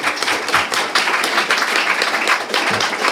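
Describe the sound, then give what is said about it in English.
Audience applause breaks out at the close of a religious freedom panel, a steady, dense patter of many hands clapping at an even level for about three seconds. “Round of applause for our guests.”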